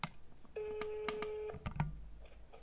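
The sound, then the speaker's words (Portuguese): Ringback tone on an outgoing phone call: one steady, even tone lasts about a second, followed by faint low rustling. “Vou ligar agora para ele. Deixa eu ver se chama, né? Ele nem sabe que eu vou ligar para ele. Olha, tá chamando.”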